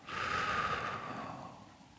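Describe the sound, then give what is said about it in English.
One deep breath during a guided relaxation exercise, drawn in through the nose and let out through the mouth. It is a soft, airy rush of air that swells quickly, then fades slowly over about two seconds. “go ahead and take another deep breath in through your nose and out through your mouth.”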